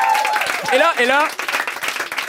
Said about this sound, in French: On commence évidemment la soirée en force avec un vieux routier de la politique, Gilles Duceppe. Ben oui, Gilles Duceppe qui va venir nous voir. Absolument, vous pouvez applaudir.